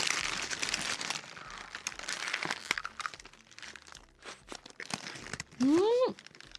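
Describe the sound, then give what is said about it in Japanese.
Crinkling and crunching as a fried tofu sandwich in a crispy coating is handled and eaten. Irregular crackles come in bursts while people talk over them, with a short, high squeak near the end. “面白い、ね、豆腐のフライが挟まって、 そうなのよ、なのでちょっとじゃあ食べていきましょうか。”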